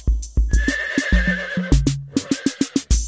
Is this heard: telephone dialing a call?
no